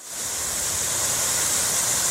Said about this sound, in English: So Dennis and I finally found a waterfall. One of the three waterfalls in Central Park.